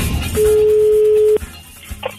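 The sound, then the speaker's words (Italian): Phone ringback tone heard while placing a call: a single long steady electronic tone lasting about one second, loud and unbroken, followed by faint clicks and line noise. “Ma c'è che chiamo Paolo, va, che è un po' che non lo sento.”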